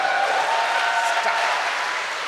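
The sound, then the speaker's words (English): An audience applauds in a steady, dense wash of clapping that holds at an even level throughout and eases off slightly at the very end. “Thanks but, for the applause, everybody.”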